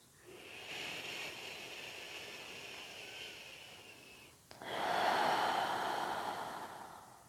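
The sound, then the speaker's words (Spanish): A slow, deep conscious breath drawn in through the nose as a soft, steady airy hiss, followed by a louder, fuller exhale out through the mouth that gradually fades. “Respira de forma consciente, profunda pero sutil al mismo tiempo.”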